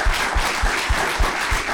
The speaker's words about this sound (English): I was about to say I love you when the applause started, so I feel I love you. You may now applaud again, please.